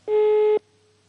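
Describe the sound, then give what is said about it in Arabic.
Telephone busy tone after a call line drops: one loud, steady, mid-pitched beep lasting about half a second, then a much fainter lingering hum. “للأسف انقطع الخط. ناخذ اتصال آخر.”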